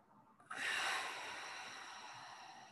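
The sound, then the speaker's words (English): Deep breathing during a guided breathing exercise: a single long, breathy rush of air starts abruptly after a moment of near-quiet, then holds steady and slowly tapers, with no talking. “I want you to take a few big inhales and let it all expand.”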